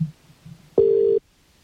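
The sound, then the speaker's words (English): A single steady electronic telephone tone from an outgoing call to Lucan sounds once for under half a second, clear and mid-pitched, between stretches of near silence. “So let's make a phone call, shall we, to Lucan.”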